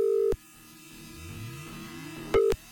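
Telephone ringback on an outgoing call to a listener in Switzerland: two short, steady ringing tones, the first at the start and the second near the end, with a soft musical bed in between.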